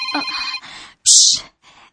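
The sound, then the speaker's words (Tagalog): A cellphone rings with a bright electronic ringtone: a sustained tonal phrase, a short pause, then a louder, higher burst, followed by a faint trailing tone. “Aoy, ang imong cellphone.”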